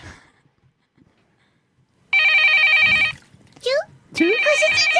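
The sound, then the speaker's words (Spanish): A telephone rings in two loud electronic trilling bursts after a quiet opening stretch, with a brief voice between the rings. “El teléfono. A ver.”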